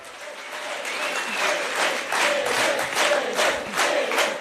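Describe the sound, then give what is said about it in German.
Crowd cheering and applauding at a special party conference of the Left party, greeting the winner of the Berlin election; a dense, steady wave of clapping and cheers stays loud throughout. “Frenetisch wird Elif Eralp, die Siegerin der Berlin-Wahl, auf dem Sonderparteitag der Linken begrüßt”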